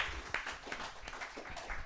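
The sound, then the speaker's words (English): Audience applause at a live performance competition, brisk, loud clapping with distinct sharp claps standing out in a rapid, uneven rhythm from start to finish. “Clap it up for Colin, everybody.”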